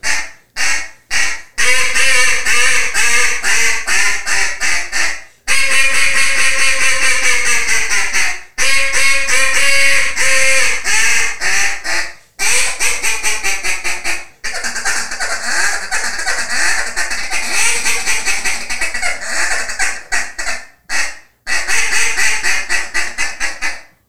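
A hand-tuned duck call being blown, giving loud, raspy quacks in rapid runs of many calls, broken by short pauses, with no other sound.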